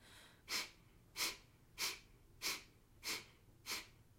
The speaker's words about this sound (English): you'll force air up and out your nose. Focus on the contraction of the abdomen to stimulate the breath.